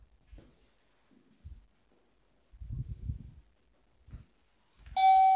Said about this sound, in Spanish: Así va a sonar el texto este.